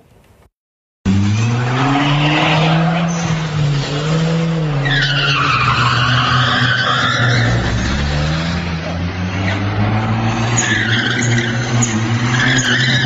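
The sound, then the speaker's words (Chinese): Tires screech loudly as a yellow sports car drifts and skids around Lanzhou's Central Square, with a roaring engine under a continuous squeal that wavers as the car circles. A brief quiet moment comes just before the skid begins. “视频是二零一八年一月一号上午网上出现的黄色跑车中央广场门口玩漂移的视频。”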